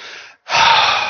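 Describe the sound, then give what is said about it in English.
A deliberate breath: a short intake, a brief silent pause, then a long, loud exhale rushing out, heard alone without talk. “Try and breathe.”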